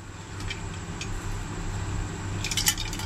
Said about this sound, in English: Another hit of the dew.